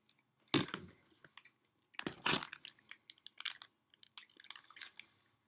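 Crunchy chewing on fried chicken, with no talk: two loud crunching bites followed by many smaller, irregular crackling chews.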